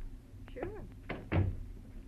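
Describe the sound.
A door being closed in an old radio crime drama, a couple of quick wooden thuds right after a brief voice, fairly faint overall.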